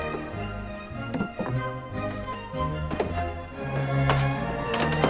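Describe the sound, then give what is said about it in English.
A chef makes dumplings with a rolling pin, giving a few sharp wooden taps and thunks against a steady musical backdrop. “Inside, the chef is making dumplings with a rolling pin.”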